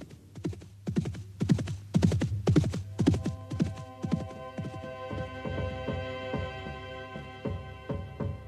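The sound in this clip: Horse hooves galloping in a steady, rhythmic run of heavy thuds, with a low humming drone rising underneath about halfway through and continuing to the end.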